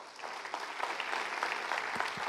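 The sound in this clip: Audience applause welcoming a speaker at an East Point gathering, a brief, fairly soft wash of many hands clapping with scattered sharper claps throughout.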